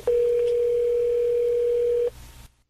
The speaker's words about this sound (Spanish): Vamos a tratar de hacer esta llamada sorpresa. A ver si nos sale. Marca ahí, por favor. Marca ahí.